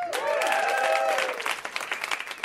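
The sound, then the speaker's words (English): An audience applauds a comedian with dense clapping and a few whoops at first, thinning into scattered claps toward the end. “Let's hear it for Cameron.”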